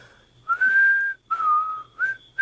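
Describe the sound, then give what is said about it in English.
A person whistles to demonstrate how to whistle, producing a few sustained, clear whistled notes at a fairly steady pitch, each separated by short pauses. “Will you show me how to do that? What, whistle? Yeah. Easiest thing in the world. Just watch me. I'll show you how.”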